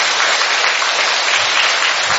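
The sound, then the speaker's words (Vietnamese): A church audience applauds to welcome a children's choir at Mass, a loud, even wash of many hands clapping without pause for the whole stretch. “Cho một tràng hoa tay để chúng ta chào mừng các bạn ấy.”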